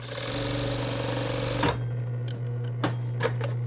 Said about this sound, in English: A fur sewing machine has two wheels that have to be moved at the same pace, otherwise the fur will wrinkle as it's sewed.